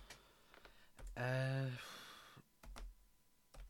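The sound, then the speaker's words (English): Sparse, faint clicks of typing on a computer keyboard, a few irregular key taps spread out, with a voice briefly heard in the middle. “I'll type it into the Discord server.”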